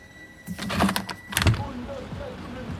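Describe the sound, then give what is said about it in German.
An office window is opened with clunks and a rattling slide in a couple of loud bursts, then quieter shuffling fades out. “Mart ist aufgestanden, hat das Fenster geöffnet und schüttelt die Kaugummischachtel.”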